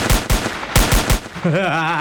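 Gunfire with many shots: rapid, loud bursts fired in quick succession, then the shooting gives way to a sustained wavering tone near the end.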